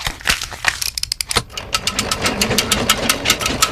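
A mechanical loom weaving fabric, clattering in a rapid, steady rhythm of many sharp clicks and knocks that settle into a continuous, even chatter after a brief uneven start.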